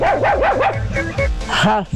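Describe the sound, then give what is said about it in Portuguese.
Dog barking in a few quick, yappy bursts, some with a whining edge, with people talking over it. “Esse cachorro é perigoso mordendo a gente.”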